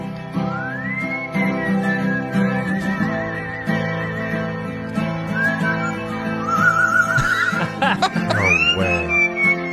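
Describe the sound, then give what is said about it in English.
A pet bird whistles a melodic tune over strummed guitar chords. Its clear, high whistled phrases glide and trill across the steady guitar strumming, growing busier and more ornate toward the end. “He's strumming a guitar while his very talented bird whistles and carries a tune better than a lot of singers.”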